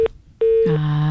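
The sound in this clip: Telephone line tones follow a cut-off call: a short beep, a pause, a longer steady mid-pitched tone, then a lower sustained buzzing tone that carries on to the end.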